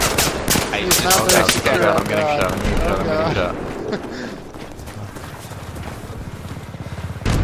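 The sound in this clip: Gunfire in a shooter video game: rapid bursts of sharp shots crowd the opening seconds and return briefly at the end, while players talk over the action.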